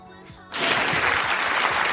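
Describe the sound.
An applause sound effect plays on a radio show in honour of a guest. It bursts in abruptly after a short quiet moment, then continues as a full, steady clapping crowd.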